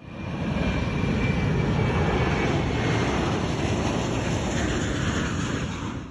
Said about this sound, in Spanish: Tripulación, próximos al despegue.